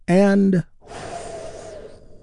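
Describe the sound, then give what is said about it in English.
Deep, slow healing breath taken during a guided meditation, a long airy exhale that follows a brief voiced sound and fades gradually into quiet. “Let's take one more big, deep, healing breath right now. Here we go.”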